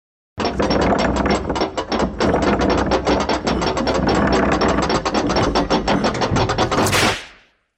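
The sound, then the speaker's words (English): A spinning prize wheel gives off a long, fast run of loud ratcheting clicks that goes on for several seconds before cutting off. “let's spin the Wheel of Pain.”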